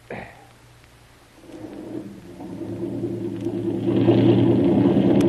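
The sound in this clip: A boat engine starting and revving: a low rumble begins quietly, then builds into a steady throbbing drone that grows gradually louder toward the end, with no voices over it.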